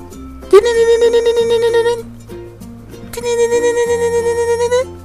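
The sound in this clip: A telephone rings for an incoming call: two loud warbling electronic ring bursts, each about one and a half seconds long, separated by a brief quiet gap.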